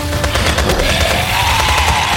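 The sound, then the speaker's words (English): Soldiers fire at will in dense, rapid gunfire, overlapping shots blurring into one loud, continuous barrage with no break. “Doctor! Get down! Fire at will!”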